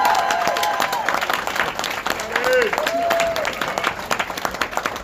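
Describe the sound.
Audience applause greets a speaker walking on stage at the Conscious Life Expo, a dense, steady patter of clapping that runs the full length, with voices calling out over it.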